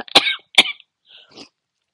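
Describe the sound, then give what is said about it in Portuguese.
An elderly woman gives two short, slight coughs close together, followed by a couple of fainter throaty sounds and then quiet. “Não, a avó não tá doente, assim. De doença grave, sabe? Só uma tossezinha, tá bom?”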